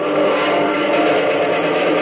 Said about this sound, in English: Planes! Jumping! Jupiter, do those look like... They are, son. American pursuit planes. A whole mess of them.